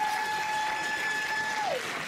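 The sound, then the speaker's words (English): Audience applause for a child at a school event, a steady wash of clapping throughout, with a sustained high tone over it that slides down near the end. “Let's celebrate our smart kids. Give him a big round of applause.”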